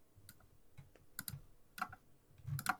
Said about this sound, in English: I want to type this to you.